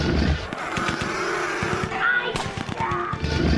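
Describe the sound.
Gunfire sound effect from a radio drama battle scene: many rapid, sharp shots crackling in dense, uneven bursts over a constant loud rumbling noise bed.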